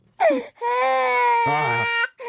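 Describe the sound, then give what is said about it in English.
A baby cries in sustained, high wailing bursts with a strong tonal quality, a short cry followed by a long drawn-out wail and the start of another, loud and alone. “Now, this is the baby crying.”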